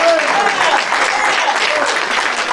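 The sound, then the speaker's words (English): A church audience applauds in praise with a steady, dense wash of clapping, while voices carry over it throughout. “Give God a hand clap of praise.”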